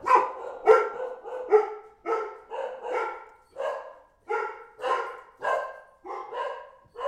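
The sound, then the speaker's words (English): Dogs barking indoors at home: many sharp, mid-pitched barks in a steady, repeated rhythm, fairly loud, with no talking. “Sorry for the dogs. Unfortunately, I don't have a studio to work out of yet, so the dogs are part of the ambiance.”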